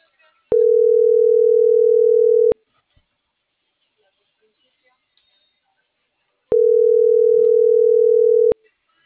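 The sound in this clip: Ringback tone of an unanswered telephone call: two long, steady, mid-pitched tones, each about two seconds, separated by a pause of several seconds of near silence.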